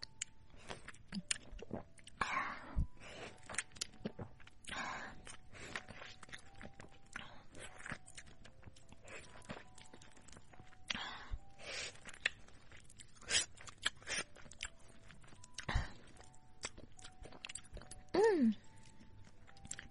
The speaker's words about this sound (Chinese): 再吃一块甜甜的橙子。